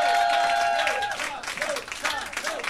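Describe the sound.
A live audience at a public music session in Rennes cheers and applauds a singer. The clapping is dense and continuous, and a sustained high tone sounds over it early on before fading after about a second.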